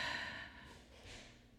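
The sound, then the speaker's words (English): A slow exhale during a guided deep-breathing session: one long, soft, airy breath, strongest at the start and gradually thinning into a faint hiss. “And now exhale.”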